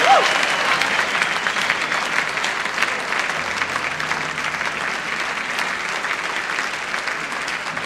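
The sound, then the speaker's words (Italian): Sustained applause from an audience at a live show, with dense, even clapping throughout and a faint murmur of the crowd underneath. “Per favore, ancora un applauso.”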